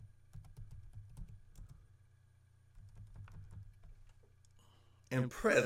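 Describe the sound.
Someone types on a computer keyboard with quiet, rapid clicking in two bursts separated by a short pause. A voice starts speaking at the very end.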